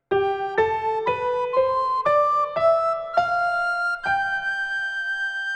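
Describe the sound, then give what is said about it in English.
A recorder plays the G major scale with a regular F: eight clear, steady notes stepping upward in pitch one after another, the last note held longest. “If we were to play the G major scale with a regular F, it would sound like this.”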